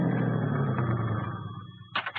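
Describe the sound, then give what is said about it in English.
A car engine rumbles steadily on a road above a lodge and gradually dies away as it parks, followed by a brief burst of higher-pitched noise at the very end. “You park your car on the road above the lodge”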